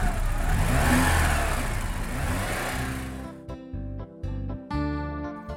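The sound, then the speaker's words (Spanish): A car engine revving up as an inexperienced driver grabs the wheel, shifts gear and steps on the accelerator, giving a loud roaring rush for about three seconds before it gives way to a different, tonal sound. “agarró el volante, hizo el cambio y pisó el acelerador.”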